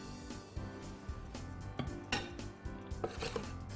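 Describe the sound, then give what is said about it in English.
Food slices are set onto a serving platter with soft, irregular clinks and taps of dishware, faint against a low background hum. “And I'm gonna ahead and put it on a platter there.”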